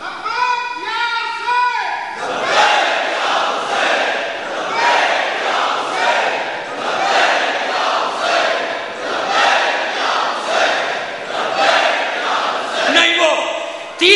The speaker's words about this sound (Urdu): نعرے بیٹا، میں نعرے کو منع نہیں کر رہا، مگر ایسے لگائے کہ پتہ چلے منظر۔